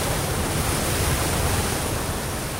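Ocean waves rushing around a rowing boat pushing into a headwind without sails, a loud, steady wash of noise with no pauses and no voices.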